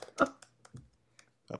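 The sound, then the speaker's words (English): Keys clicking as someone types on a computer keyboard, a few sharp, separate taps with short pauses between them. “So let me just type that in here.”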